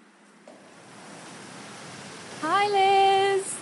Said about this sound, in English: The noise you can hear is the sound of water gushing into a big, open-top channel right in the middle of the room.